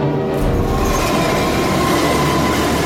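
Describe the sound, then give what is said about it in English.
A moving locomotive train rumbles steadily and loudly, a dense continuous roar with rail clatter running through the whole stretch and no voices. “More powerful than a locomotive.”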